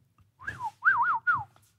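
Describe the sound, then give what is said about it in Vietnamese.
A man whistles three short melodic phrases, the middle one a quick warbling run, each clear and fairly loud against a quiet background with no talk. “lão huýt sáo”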